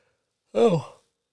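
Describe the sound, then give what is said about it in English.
A single short human yawn, a breathy voiced exhalation lasting about half a second with a falling pitch, alone against silence. “Look at that. I got my own yawn, which means I'm not breathing to the bottom of my lungs.”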